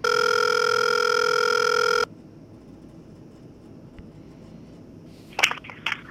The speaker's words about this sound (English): It's dialing right now.